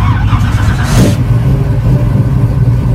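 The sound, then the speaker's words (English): A red 1968 Pontiac Firebird engine starting up in a shopping center parking lot at a vintage car gathering. It holds a loud, steady low rumble throughout, with a brief hiss near the start. “That's the sound of Brian Gerstel's bright red 1968 Pontiac Firebird starting up here at a shopping center parking lot in Burtonsville”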